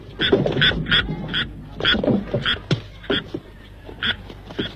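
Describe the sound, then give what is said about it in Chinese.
Many loud, nasal, quacking frog croaks come in quick bursts with an uneven rhythm during a Beijing stage performance, and no voices are heard. “怎么回事？哪儿的青蛙？”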